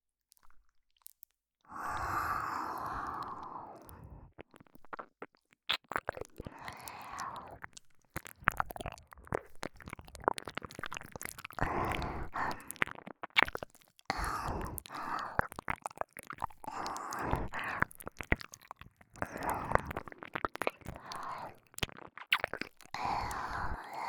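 Wet ear-licking sounds, a long continuous stream of soft slurps, smacks and clicks, faint and steady throughout with no talk.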